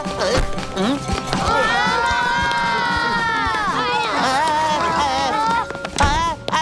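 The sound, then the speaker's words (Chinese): Children shout noisily, several high voices crying and squealing together over a busy, running commotion with a few sharp thumps, loud and sustained. “你们吵吵嚷嚷的干嘛呀？”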